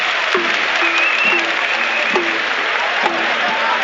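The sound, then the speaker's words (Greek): A home basketball crowd applauds injured American centre Kenneth Faried as he is helped off the court. The applause is steady and strong, and a man talks over it throughout. “Χειροκρότημα έντονο από τους γηπεδούχους και μπράβο τους,”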